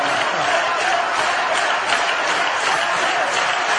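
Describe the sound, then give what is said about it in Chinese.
Applause from a live performance audience, dense and steady from start to finish at an even level, with no voices standing out above it. “谢谢大家的热情。没有白拍。我说了算。哎，你这叫拍死也白拍啊。”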